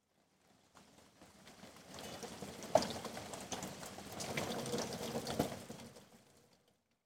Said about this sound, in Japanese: すごい雨ですね。